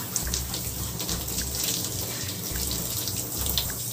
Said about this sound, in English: And I'm not doing anything special to myself. I'm just washing my skin.